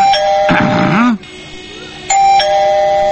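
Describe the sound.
Doorbell ringing at a house door: a clear two-note ding-dong chime sounds, falls silent for about a second, then rings again, loud and bright.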